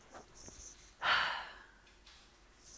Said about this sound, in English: Taking a breath.